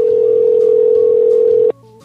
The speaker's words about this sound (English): Someone genuinely just hung up, didn't they, on the phone?